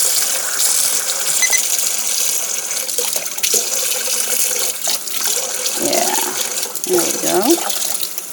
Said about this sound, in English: I'm bringing it over here to rinse it off.